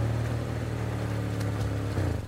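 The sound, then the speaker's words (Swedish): Engines hum as two EPA tractors, cars converted for tractor use, a Volvo and an Amarok, pull in to park: a steady low drone that swells briefly before easing off at the end. “När han tittar upp ser han två epor parkera bredvid Joars bil. Den ena bilen är Emils Volvo. Den andra är tvillingarnas Amarok.”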